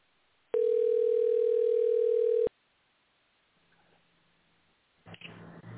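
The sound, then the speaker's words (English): A voicemail tone: one loud, steady electronic beep lasting about two seconds. Near silence follows, then a rough burst of noise near the end. “Your call has been forwarded to voicemail. Please leave a message after the tone.”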